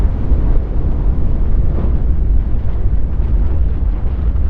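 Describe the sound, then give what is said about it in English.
Deep, continuous roar of the volcanic eruption at the summit of Mount Sinabung as smoke and ash shoot into the air. The loud, steady rumble holds throughout with no voices. “Now the summit of Mount Sinabung. The volcano erupts. Smoke and ash shoot into the air.”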